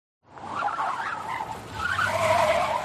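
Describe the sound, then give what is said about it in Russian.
A grey BMW speeds past with a rising roar of engine and tyre noise that swells in and stays loud to the end. “Истерично сигналя, выскочив на встречную полосу, мимо пронесся серый БМВ.”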